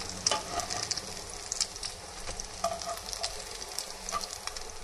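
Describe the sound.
Potato pancakes frying in oil in a pan give a steady, fairly faint sizzle. Small pops and crackles are scattered through it, and no voices are heard.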